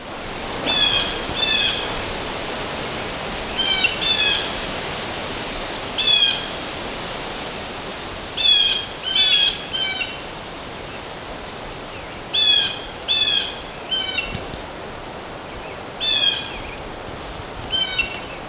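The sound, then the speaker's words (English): Savannah sparrow song repeats as several short, high, thin buzzy phrases, spaced apart over a steady background hiss. “Savannah sparrow.”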